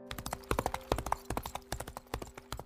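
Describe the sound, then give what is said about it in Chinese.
Horse hooves clattering on a street at night as a rider goes fast, many crisp, sharp clip-clop strikes in a quick, steady rhythm, heard alone without talk. “长街上响起清脆马蹄声，除了东宫，谁也不敢深夜在城中骑这样的快马。”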